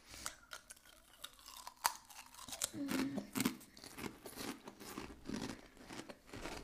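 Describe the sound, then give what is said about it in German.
Crisp crunching and chewing of ridged potato chips with 30% less fat, a run of loud, irregular bites and munches, some sharper cracks among softer chewing. “Dann kommen wir zu den geriffelten Chips. Die habe ich auch noch nie gegessen. Aber ich mag geriffelte Chips.”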